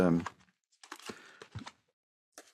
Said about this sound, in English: Let's cut the deck here and see what we get.